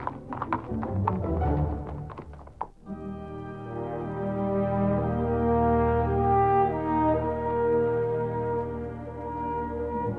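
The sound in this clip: Horse hooves clip-clopping while riding: a quick, steady run of light taps lasting under three seconds, then giving way to a sustained, droning harmonic tone.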